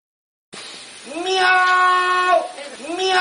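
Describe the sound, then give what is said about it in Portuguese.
A man shouting "meow" at a wolf, his voice imitating a cat in a loud, drawn-out wavering cry that bends in pitch, followed by the start of a second meow. “Fique com o homem gritando miau para o lobo.”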